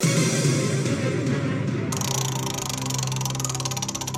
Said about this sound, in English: Okay, spinning the wheel for me.